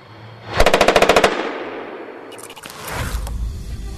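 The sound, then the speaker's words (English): Rapid machine-gun fire from an M240C 7.62mm gun mounted on a Bradley vehicle beside its Bushmaster chain gun: one short, loud burst of quick rounds, then a lower rumbling noise. “The M240C machine gun mounted to right of the Bushmaster fires 7.62mm rounds.”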